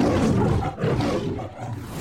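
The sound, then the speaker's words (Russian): A lion roars for a film studio's logo intro: a loud, deep, rough roar held for about two seconds with a steady, unbroken level and no talk. “В разное время в заставках «Метро Голден Майер» снималось семеро разных львов, а с 2022 года живого хищника заменил цифровой двойник.”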